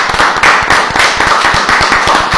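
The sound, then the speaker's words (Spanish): Audience clapping for young dancers at a Latin rhythm dance masterclass, loud, quick claps in a steady, regular rhythm throughout. “Muy bien, me encanta, felicidades, un aplauso para los chicos.”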